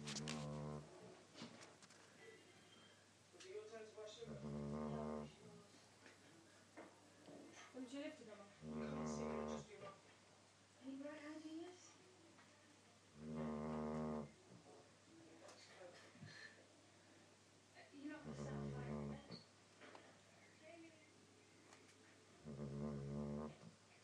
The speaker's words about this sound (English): This is Indy, the Labrador, snoring.